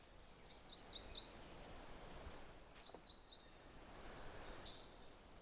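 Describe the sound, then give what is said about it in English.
Bird song: high, thin trilled phrases, first a longer one and then, after a pause, a second, followed by a brief final note, all fairly faint over a steady background hiss. “Well, that was the song. There's some other noises and songs too. But the reason it's fun to learn this song is because if you get a look at the bird, it's just outstanding.”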